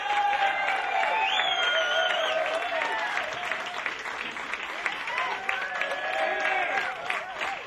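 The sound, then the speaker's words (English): Loud, sustained audience applause welcomes a big band onto the stage. The dense, steady wash of clapping has shouts and cheers rising above it and holds for the whole stretch. “Ladies and gentlemen, please put your hands together and welcome to the stage, the Ed Palermo Big Band.”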